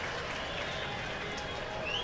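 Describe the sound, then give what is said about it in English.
Noise from an energized baseball stadium crowd of more than 26,000 fills the air as a steady, broad roar of cheering with no distinct breaks, while a commentator talks faintly over it. “This crowd is energized. A crowd of better than 26,000.”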